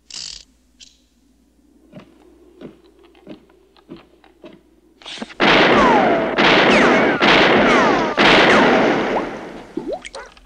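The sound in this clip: Gunshots from target practice in a western film scene near a bridge: a few faint, sharp cracks come first, then a loud, dense stretch of repeated blasts.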